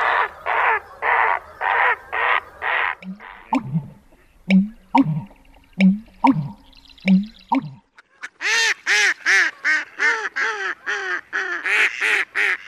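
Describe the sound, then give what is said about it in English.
Calls of marsh birds such as great egret, American bittern, marsh wren and black tern come in turn: a run of harsh, evenly repeated squawks, then deep low notes mixed with sharp clicks, then a quick series of buzzy, nasal calls. “great egrets, American bitterns, marsh wrens, and possibly the rare black tern can be seen. Here are a few of the calls you are likely to hear.”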